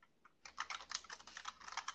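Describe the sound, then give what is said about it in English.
Typing on an old-school computer keyboard at a home work setup: a rapid, uneven clatter of many keystrokes that begins after a brief quiet start and carries on to the end, with no talk. “I can hear you typing. What kind of computer are you using?”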